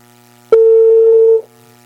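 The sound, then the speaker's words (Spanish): A single steady, mid-pitched telephone tone sounds while a call is placed to merchants. It starts with a sharp click and holds for just under a second before cutting off cleanly, with no voices. “Estamos llamando a los comerciantes ahora.”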